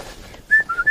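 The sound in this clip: A man whistles a few short, clear notes of a tune while walking, the pitch shifting from note to note within about a second.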